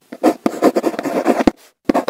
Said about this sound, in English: Someone writing a love letter on Valentine's Day.